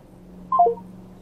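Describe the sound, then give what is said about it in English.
Telephone keypad dialing tones: three brief electronic beeps in quick succession, stepping down in pitch, over a faint steady low hum. “You take all the time to dial in those numbers.”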